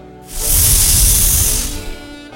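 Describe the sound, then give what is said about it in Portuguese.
A soft breath blown close into the listener's ear, a single smooth, airy hiss that swells quickly, holds for over a second and fades. “Encosta o fone nos seus cabelos que eu vou dar aquela sopradinha.”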